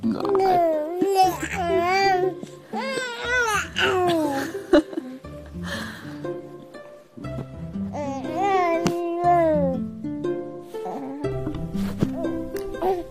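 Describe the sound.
An infant babbles and coos in a long string of bright, pitch-swooping vocal bursts with brief pauses. Some sounds have a giggly, laugh-like lilt.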